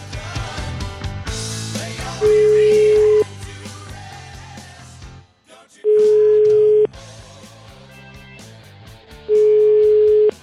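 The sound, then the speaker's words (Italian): A telephone ringback tone sounds while a call is being placed. Three steady, mid-pitched tones, each about a second long, repeat at even intervals over loud background music. “Proviamo a chiamare Sgarbi, eh? Proviamo a chiamare Sgarbone, vai!”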